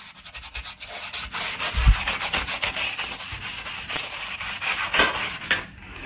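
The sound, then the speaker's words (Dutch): Scrubbing of grout joints in a kitchen: many rapid, rhythmic rasping strokes with a hissy, abrasive texture, steady and fairly loud, stopping just before the end. “Even de voegen vegen in de keuken.”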